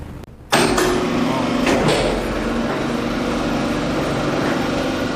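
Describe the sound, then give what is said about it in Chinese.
An electric boat davit starts with a clunk and then drones with a steady whirring motor whine as it swings a fiberglass boat out through an opened side door over the ship's side. “将舷侧门打开以后，通过小艇艇架将小艇整体平移出舷外，实现吊放。”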